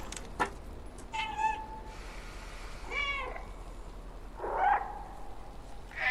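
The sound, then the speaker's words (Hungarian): Recorded cat meows play from a dedicated button on a device: a few short, separate meows with clear tonal harmonics, spaced out over a steady background hiss. “hogy külön gomb van a nyávogáshoz. Tehát, hogy bármikor lehet nyávogni a cicával.”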